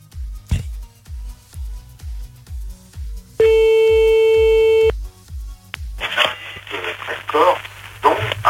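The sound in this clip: A telephone call dialed and ringing on a live late-night radio show: a steady low thumping beat, then a single sustained electronic tone of about a second and a half, followed by hissy line noise and crackle.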